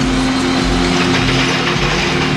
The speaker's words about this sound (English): He waves the tank forward with his hands. As the vehicle crawls into the shady nook